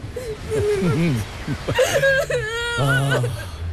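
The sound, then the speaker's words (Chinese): A child crying, with wavering, high-pitched whimpers and wails in uneven bursts, broken by short gasping pauses, some stretched into longer sobbing cries. “好孩子，不哭啊，不哭。”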